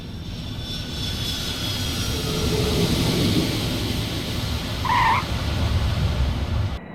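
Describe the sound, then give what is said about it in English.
An airplane comes in to land with its flaps extended and landing gear lowered. Its engines give off a steady, droning roar that swells slightly and then holds, with a brief higher whine partway through. “Now, give me 20 more degrees of flaps and gear down. 20 more flaps. Gear coming down. We have green light on the landing gear.”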